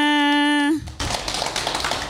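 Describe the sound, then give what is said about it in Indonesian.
Dense, steady clapping from a group of children at a school gathering follows a short held voiced tone and continues evenly to the end. “Tepuk tangan semuanya.”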